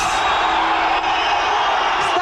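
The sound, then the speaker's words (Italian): An angry crowd outside Bettino Craxi's residence at the Hotel Raphael in Rome in 1993, a dense, loud and unbroken roar of shouting and jeering voices. “A Roma, una folla inferocita aspetta l'ex segretario socialista davanti alla sua residenza romana, l'Hotel Rafael.”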